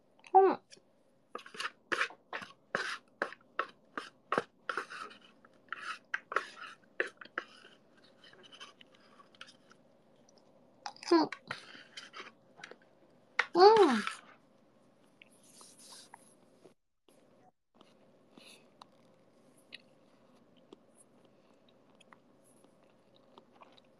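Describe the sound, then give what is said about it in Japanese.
Chewing on the last bite of food, a fast run of crisp, crunchy clicks that thins out into scattered softer mouth sounds and then quiet. “そしたら最後の一口いただこうかな。いただきます。”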